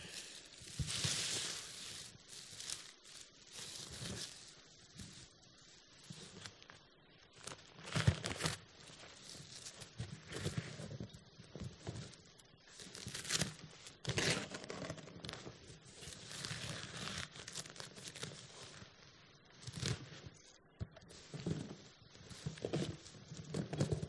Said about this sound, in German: Jetzt müssen wir gleich schnell das Geschenk auspacken.